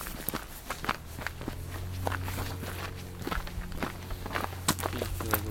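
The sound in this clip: Footsteps walk through a tunnel in a video game, many steady, evenly paced steps over a continuous low droning hum, with no talk.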